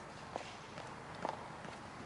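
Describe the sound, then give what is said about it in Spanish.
Footsteps of a woman walking along a sidewalk: a few soft, evenly spaced steps, faint over steady background noise. “Krista se acerca caminando por la acera.”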